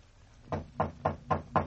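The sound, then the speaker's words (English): A light knock on a door: five soft, evenly spaced raps in quick succession, with no other sound around them. “And then she knocked, lightly.”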